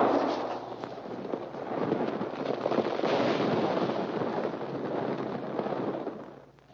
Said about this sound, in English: That's a warning. Come out with your hands up. You shot loose in some rocks.